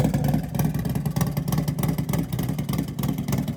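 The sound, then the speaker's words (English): A costly race motorcycle engine revving, a loud, sustained rasp with rapid pulsing and steady intensity throughout. “It sounds like a race bike.”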